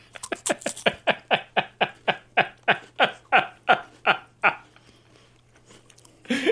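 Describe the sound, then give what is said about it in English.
Loud, crisp crunching as someone eats a baked cracker topped with red pepper flakes, a long run of evenly spaced bites and chews that fades out before a voice starts. “And you want me to eat this? Yeah, get one with a lot of red pepper flakes on it.”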